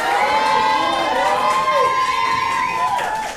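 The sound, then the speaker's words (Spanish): A quiz-show audience cheers and shouts on cue. A long, high held note runs through the loud, continuous crowd noise before everything fades slightly at the end. “a ver, que se escuchen las porras, por favor, vamos a ver.”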